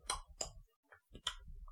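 Dinosaurs in a video game give off clicking calls, a few short, sharp, rasping bursts separated by brief pauses, fairly faint.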